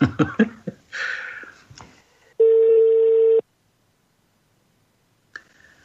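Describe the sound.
A telephone call that fails to connect: after brief talk, a steady mid-pitched line tone sounds once for about a second, followed by silence and a single faint click near the end.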